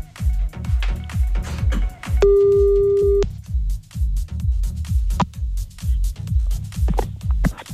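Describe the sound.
A telephone ringback tone heard while calling someone back, a single steady pure beep about a second long, set against a pulsing music bed with regular thumping bass beats.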